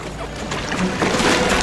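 Oars splash and pull through the water as crew row a small boat near sailing ships, a soft, continuous watery swish and gurgle that swells slightly toward the end, with no voices.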